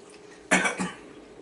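Coughing from someone who has inhaled food seasoning: two short, harsh coughs in quick succession, fairly loud against a quiet background.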